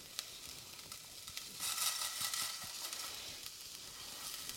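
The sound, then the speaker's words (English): Rice and lentils dumped into a hot pan where garlic has browned, for a one-pot cheesy Mexican dish with black beans, giving a steady crackling sizzle that swells for a moment and then settles to a constant fry. “Now, your rice and your lentils go in. So just dump them into the pan.”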